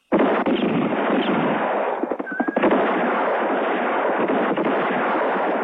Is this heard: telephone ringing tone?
no